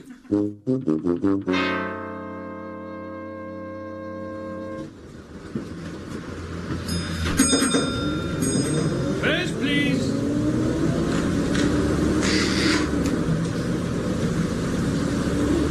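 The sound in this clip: Engine rumble of a bus driving straight past without stopping. The sound starts quieter, then swells into a heavy, steady drone that holds loud to the end.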